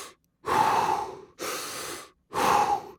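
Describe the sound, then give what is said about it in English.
Deep, forceful breathing of a rapid breathing technique done many times in a row: three long, loud rushing breaths about a second each with short pauses between, and no talk. “he has these breathing techniques that you do. And I do them, too. I'll do them and I'll meditate with them. But it involves you going”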